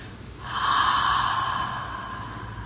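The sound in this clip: A slow exhale during a guided breathing exercise: a soft, airy whoosh that swells, holds for about two seconds and then gradually fades.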